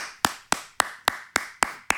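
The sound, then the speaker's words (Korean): Seven crisp hand claps ring out alone at a steady, evenly spaced rhythm, each a sharp smack with a quick decay. “우리 배우를 향해서 또 박수 칠 때 앉아서 박수 치는 것보다 서서 되게 약간 나 오페라 보러 온 사람처럼”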